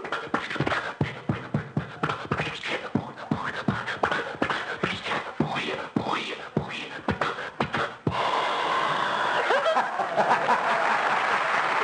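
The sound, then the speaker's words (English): A man uses his voice to imitate a sputtering Maxwell car engine, with irregular rapid coughing bursts for about eight seconds. A studio audience then breaks into sustained, steady applause. “So I said, get the Maxwell started. And he would go out, and you'd hear the Maxwell, and this would be it.”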